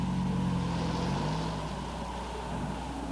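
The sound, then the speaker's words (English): A snow-covered car drives through a gate, giving a steady, loud, low engine rumble with a faint tonal whine that fades partway through, alone and without voices. “The snow-covered car drives through the gate.”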